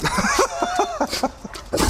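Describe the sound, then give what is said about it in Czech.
A few short barks from a large golden retriever at a parish house, quick harsh yaps with a whiny tonal edge, fairly loud and close together. “Bacha, pes. Je hodně velké plemeno. Ano, zlatý retriever.”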